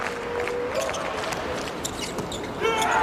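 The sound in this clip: A volleyball serve scores an ace in a Slovenia versus Poland match, with the ball striking through a dense, constant crowd roar.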